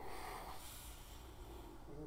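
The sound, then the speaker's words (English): A person yawns: a faint, drawn-out breathy exhalation lasting about two seconds, soft and airy with a slightly nasal, snort-like quality. “I'm going to yawn. Don't kill me.”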